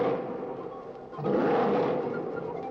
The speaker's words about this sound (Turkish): Bir ses duydun mu? Evet, duydum. Dağ aslanı, hem de çok yakından geldi.